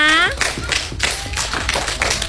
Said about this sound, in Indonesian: Tepuk tangan dong untuk kita semuanya.